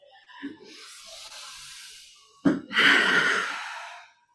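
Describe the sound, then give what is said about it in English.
A long, deep breath drawn in, soft and airy, followed by a louder, breathy exhale, taken by a speaker before reciting a poem, with no talk over it. “I'm going to take a big deep breath in and I'll invite you to do the same.”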